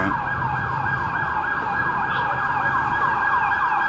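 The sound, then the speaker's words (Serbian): A police siren wails loudly and continuously, its tone sweeping up and down in a steady repeating cycle with no talk over it. “Kad bi naučili da sviraju sa tim sirenama nešto, znaš, naučiš da sviraš neku temu nešto.”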